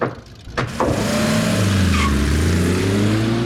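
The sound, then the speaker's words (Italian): A BMW car accelerates sharply and speeds away. After a brief knock, a loud, steady engine roar runs to the end. “Il guidatore accelera in modo brusco, poi si allontana ad alta velocità.”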